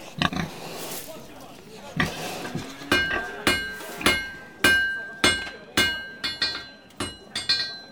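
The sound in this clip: Heavy hammer blows ring out as a blacksmith forges metal tools and weapons on a farm. Many sharp, bright metallic clanks with ringing overtones follow in an irregular steady rhythm after a noisier start.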